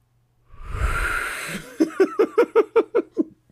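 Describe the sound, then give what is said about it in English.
A single deep breath lasts about a second. It is followed by a rapid run of about eight rhythmic voiced bursts, like soft laughter. “can we all just kind of take like a deep breath for a second? Can you all just kind of like breathe with me?”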